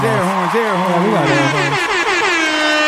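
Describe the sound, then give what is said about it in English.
An air horn sound effect blares loud and continuous, with several stacked horn tones that bend and step in pitch before settling into a sustained blast. “air horns.”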